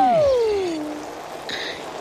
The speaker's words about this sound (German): Ah, ich weiß, ich hexe mir einen Regen.